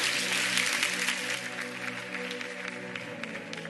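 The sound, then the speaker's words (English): A church audience applauds a family with steady, dense clapping that runs throughout at a moderate, even level. “Church, can we put our hands together and congratulate this family?”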